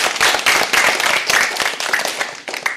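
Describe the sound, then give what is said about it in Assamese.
Loud, dense applause from a group at a gathering, the crowd clapping together as one continuous rattle of hand claps that lasts the whole clip with no talking. “বাৰু, সকলোৱে হাত চাপৰি বজাই দিয়া।”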